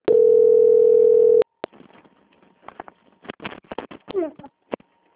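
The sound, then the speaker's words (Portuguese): A telephone call-transfer tone on a phone line: a steady, loud, pure tone holds for over a second and cuts off. Scattered faint clicks and rustling follow, with a faint hum underneath. “Eu vou transferir o contato para o controle de qualidade que dará continuidade à sua contratação, ok? Ok. Desejo uma ótima tarde. Igualmente. Só um minuto. Transferência.”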